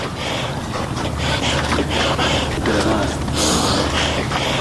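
Heavy, rhythmic breathing of a mountaineer climbing Siakoh near Firozkoh, loud, breathy inhales and exhales repeating steadily over a rushing, noisy background.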